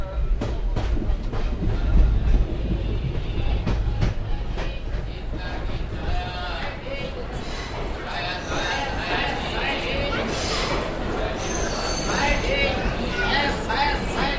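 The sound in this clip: A train rumbles at Chennai Central railway station with a loud, continuous roar and rhythmic clicking of wheels, while crowd chatter mixes in throughout.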